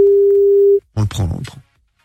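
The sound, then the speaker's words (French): A telephone ringing tone in a radio studio: one steady, pure mid-pitched tone held for under a second, then it stops and people talk. “Ça y est, ça sonne. Alors qu'est-ce qu'on fait? Vas-y. On le tease ou on le décroche? Non, on décroche.”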